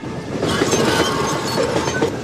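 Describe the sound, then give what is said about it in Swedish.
A train runs on rails as a wagon is uncoupled from the rest of it, giving a loud, steady rumbling clatter that holds evenly throughout without voices. “För att kunna komma undan med pengarna kopplade skurkarna ifrån vagnen från resten av tåget.”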